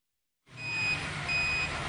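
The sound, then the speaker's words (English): A truck's reversing beeper sounds as a shipping container is delivered to a furniture outlet. Two long, high, steady beeps ride over a continuous low engine rumble, which starts abruptly after a brief silence. “Sounds like another container arriving at Direct Furniture Outlet Hawke's Bay.”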